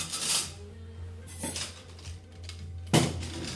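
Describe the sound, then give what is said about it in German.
Porcelain bowls are set down on a table for a meal of potatoes, cabbage and bratwurst: a few separate clattering knocks, spaced apart, over a low steady hum. “Wie hört sich das an? Porzellanschüsseln werden auf den Tisch gestellt.”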